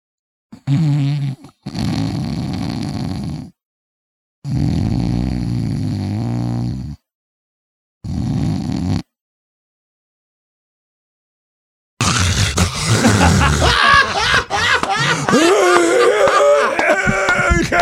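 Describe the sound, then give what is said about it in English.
A person's voice imitates the snoring of sleep apnea with several rasping, snort-like bursts separated by silent pauses, followed by a longer, louder stretch of noisy sound. “if you have someone that makes this sound that I'm going to do for you right now, you have somebody probably with sleep apnea”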